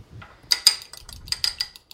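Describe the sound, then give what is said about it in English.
Fork beating a cracked egg in a bowl while preparing sugar spice roasted almonds: many quick, bright metallic clinks and taps in an uneven rhythm, with soft sloshing between strikes. “So you crack it into a bowl. I'm going to just use a fork and beat it up a little bit”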